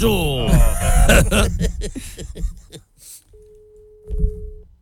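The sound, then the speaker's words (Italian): A telephone busy signal sounds as a single steady, mid-pitched tone held for about a second. It comes after a stretch of lively talk, and a voice briefly overlaps its end. “A me sembrava che era linea occupata, faceva tu.”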